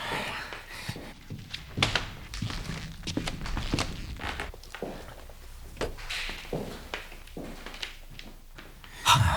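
Footsteps descending a narrow stone staircase into a wine cellar: many irregular, soft steps and scuffs, fairly faint, with a firmer thump near the end.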